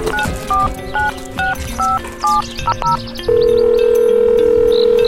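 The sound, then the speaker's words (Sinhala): A telephone keypad sounds a quick series of dual-tone beeps as someone dials to make a call, followed by a long, steady electronic tone that holds to the end over a low background murmur. “ඉතින් බං උඹ call එකක් ගනින්කෝ බං මට මේ බලන් දීලා.”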